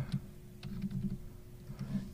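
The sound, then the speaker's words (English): Typing on a computer keyboard: a few soft, scattered key clicks, faint over a low steady hum. “I just need to type in the right words.”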